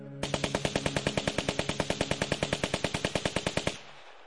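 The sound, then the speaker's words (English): Soldiers fire a machine gun in one long, evenly spaced burst of many sharp, loud shots lasting about three and a half seconds. The shooting stops abruptly, with no voices. “Go bid the soldiers shoot!”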